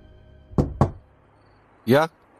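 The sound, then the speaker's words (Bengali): Two sharp knocks on a door land in quick succession, loud against near silence, followed shortly by a brief voice. “এমন সময় দরজায় টোকা পড়ল।”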